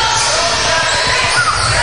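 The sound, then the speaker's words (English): A basketball bangs off the backboard on a missed shot during a basketball game between the Indians and Newton, a brief thud buried in loud, steady crowd noise. “That was a brick shot by Clark Yoder that just hit the backboard. Yeah, kind of cleared the long side of the rim.”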